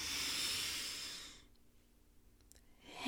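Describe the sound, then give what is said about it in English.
A deep breath drawn in through the nose during a relaxation exercise, a soft, airy hiss lasting about a second and a half before dropping to near silence. “we're going to take a deep breath and we're going to hold for a few seconds. In through the nose.”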